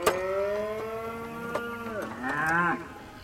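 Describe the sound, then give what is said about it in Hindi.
A bull yoked to a chariot lows with a long, deep, harmonic moo that bends downward at its end. A shorter, wavering call follows, and no voices are heard. “Mathura जाने वाले मार्ग के लिए उसने अपना रथ तैयार करवाया रथ में दो सुंदर और बलशाली बैल लगवाए”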